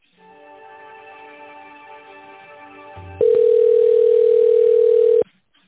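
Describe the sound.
Telephone line tones while a call is being transferred: a soft, buzzy steady hum for about three seconds, then a loud, pure continuous tone lasting about two seconds before cutting off abruptly.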